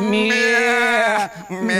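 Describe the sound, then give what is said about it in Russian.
Sheep bleating near a manor estate: one long, wavering, nasal bleat, then a brief break and a shorter second bleat. “«Мя-мя-мя-мя-мя». Овцы блеют.”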